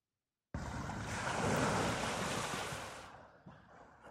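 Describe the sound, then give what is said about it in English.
Waves crash on a beach: a loud hissing surge of surf breaks in suddenly, swells, then slowly recedes before a smaller wash rolls in. “can hear the sound of waves crashing. You kind of come to the realization that you must be on a beach.”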